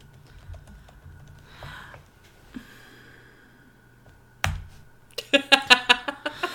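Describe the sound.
Typing on a computer keyboard: after a mostly quiet stretch with a few soft sounds, a rapid run of sharp, crisp keystrokes clatters loudly near the end.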